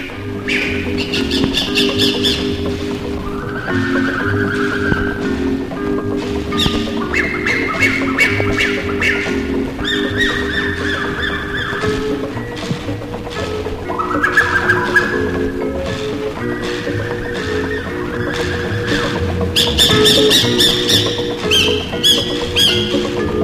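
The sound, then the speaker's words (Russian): Exotic birds in a tropical rainforest squawk and call without pause: many overlapping shrill, tonal cries ride over a dense, steady background chorus, loud throughout with no talking. “Едва войдете в тропический лес, услышите экзотических птиц, крики обезьян.”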